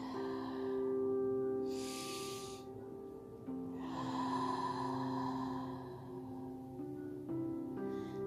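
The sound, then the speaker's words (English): Slow breathing in and out during a guided relaxation: soft, airy breaths, one short and one longer, rise over a steady, quiet drone of sustained tones. “Inhale and exhale.”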